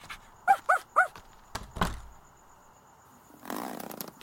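A dog lets out three quick, high-pitched yips and barks, then a couple of dull thuds and a breathy, noisy stretch like panting.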